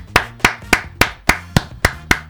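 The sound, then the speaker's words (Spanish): Eight crisp, loud handclaps from one person, given as a round of applause to viewers, spaced in an even, fairly quick rhythm with nothing else around them. “¿Sabe qué, chicos? Le voy a dar un aplauso.”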